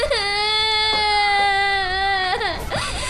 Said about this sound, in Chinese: 别哭了别哭了